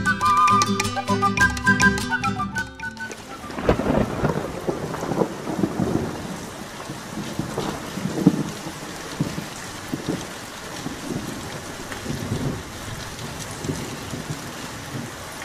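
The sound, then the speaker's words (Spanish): Steady rain falls on village roofs at nightfall with rumbles of thunder, a dense, even hiss with low rolling swells, preceded by about three seconds of tonal music that cuts off as the rain takes over. “En el pueblo empezaba a entrar la noche y la lluvia caía lentamente sobre los tejados.”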